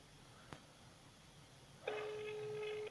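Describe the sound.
An unanswered telephone call's steady electronic ring tone starts after a quiet stretch with one short click and holds evenly for about a second.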